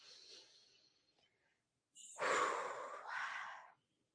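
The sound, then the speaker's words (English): A deep breath taken in and let out during a guided relaxation exercise: a faint, airy inhale, then a short pause, then a louder, rushing breath that swells and trails off. “I want everybody just to like take a deep breath with me.”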